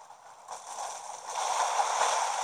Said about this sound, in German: Als Schneemann einfach schwimmen, sieht so geil aus.